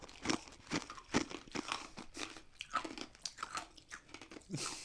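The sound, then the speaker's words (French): Crunchy chewing of a chunky smoothie made in a Magic Bullet blender, with ice and solid bits, gives many irregular, crisp crunches and bites at a fairly low level, with no talking. “C'est la dégustation de smoothie la plus bruyante que j'ai jamais entendue de ma vie. Elle se boit clairement pas avec une paille.”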